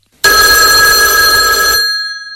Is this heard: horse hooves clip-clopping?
no